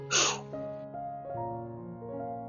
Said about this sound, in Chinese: 来，我要请你帮我一个忙，跟我深呼吸，